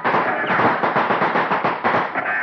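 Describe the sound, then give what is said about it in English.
A ragged musket volley: many overlapping shots crackle in rapid succession, a dense, loud burst of gunfire sustained for a couple of seconds. “You women down there, get ready to reload these muskets. Here you are. We're going to work fast. Ready? Fire!”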